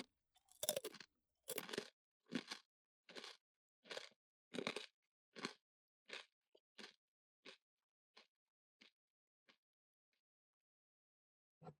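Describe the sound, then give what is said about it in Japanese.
Crisp crunching as a crunchy cheese snack and chocolate are eaten in turn: a long series of sharp bites and chews that gradually grow quieter, with no talk. “あとはチーズカリッカリのやつと普通のチョコか。贅沢に交互に食べてこっか。”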